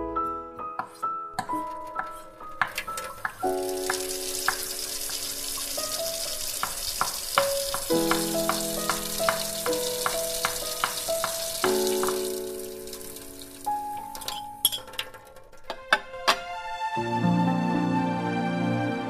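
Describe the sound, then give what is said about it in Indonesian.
Food sizzles as it fries in a pan, a steady bright hiss running beneath melodic music throughout most of the stretch. “Walau kesal, ia tetap melanjutkan memasak.”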